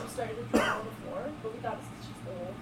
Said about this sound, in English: That really looked like the decibel meter was reading your cough just then.